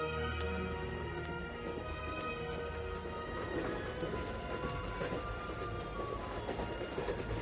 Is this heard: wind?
no